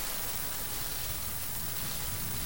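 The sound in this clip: Steady rain: a dense, even hiss with a low rumble underneath that holds at a constant level throughout, with no distinct drops, no pauses and no voices.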